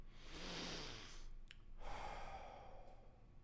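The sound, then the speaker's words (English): Breathing in through the nose and out through the mouth during a guided breathing practice: a long, airy inhale, a brief pause, then a steady, softer exhale, with no talk. “Let's go ahead and breathe in through our nose and out through our mouth.”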